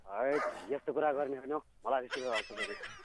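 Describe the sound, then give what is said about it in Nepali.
Barking and yipping credited to a dog brought into a studio: a loud, rapid run of high, tonal yelps and whiny barks, broken by a short pause partway through. “ए कुकुरै लिएर पो आएको? ल ठिक छ, दुइटै आउनुहोस् ल, दुइटै आउनुहोस्।”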